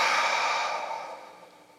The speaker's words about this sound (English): would you take a deep breath in and out?